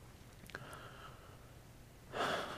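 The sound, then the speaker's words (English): A single deep inhale, a soft breathy rush of air that swells near the end after a quiet stretch. “Before we go further, take with me a very deep breath. That felt really good. I'm going to take a second one.”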